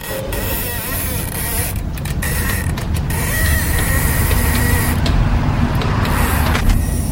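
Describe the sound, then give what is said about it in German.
Gas escapes in a steady, loud, broad hiss that rushes on without pause, with a few brief clicks and knocks in the mix. “Ausströmendes Gas.”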